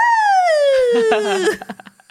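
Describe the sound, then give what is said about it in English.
A woman's voice imitates a siren with a long, loud wail that glides steadily downward, then breaks into a few short, choppy vocal bursts. “At one point, she does like a fake orgasm that's like a siren.”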